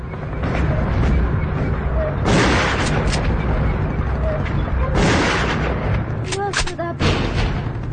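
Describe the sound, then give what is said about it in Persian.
Gunfire and artillery on a street as Iraqi tanks and troops close in: a loud, continuous roar with heavy booming blasts and sharp bursts of shots throughout. “تانک ها و نیروهای عراقی از یه طرف خیابونشون نزدیک میشن. سمیره به طرف دیگه میره و رضا تیر میندازه.”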